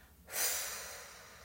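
A slow exhale during a breathing exercise, sitting with the spine straight: one soft, airy breath that starts suddenly and fades gradually, faint and heard alone.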